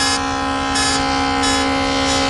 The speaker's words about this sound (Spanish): Y son las sirenas que no paran de, tocar a la llegada de, en el atraque de, de la Virgen.